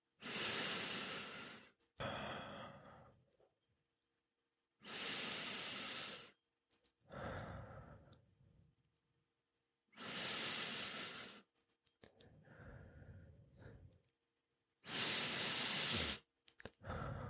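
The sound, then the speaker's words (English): Slow, deep breaths in and out, taken as a calming exercise, rise and fall in a regular rhythm. A few loud, hissing inhales each give way to a softer, longer exhale, with brief silences between. “take 5 deep breaths in and out. I'll do them with you.”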